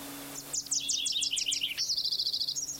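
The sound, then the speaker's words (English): Wilson's warbler song: a quick series of sharp, high chips that step slightly downward, then a faster, even rattle of many high notes at a steady pitch. “20, Wilson's warbler, God bless it.”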